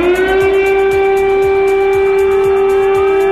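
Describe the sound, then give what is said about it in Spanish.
An air raid siren warns of imminent bombing in a capital city at night, holding a loud, steady, sustained wail with layered overtones throughout, and no speech. “Sirenas que advierten a la población de un bombardeo inminente.”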